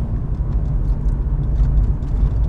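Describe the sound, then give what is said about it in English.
Low, steady rumble of a car driving through a neighborhood on the way into Rhino, an even engine and road drone with no talking. “So now we're driving through. We're almost into Rhino.”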